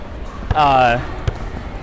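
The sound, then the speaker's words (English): A basketball bounces twice on a court, two sharp, punchy thuds under a second apart, with a person's voice speaking between them. “No, this is the basketball.”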